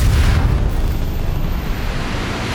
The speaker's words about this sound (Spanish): Una violenta explosión los sacude todo, pero no perdemos el equilibrio. El impacto ha sido lejano.